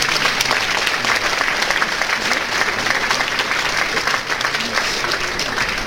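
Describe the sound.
Dense, sustained applause from a game show audience after a day's winning points total is announced, a steady loud wash of clapping that holds evenly for about six seconds with no break.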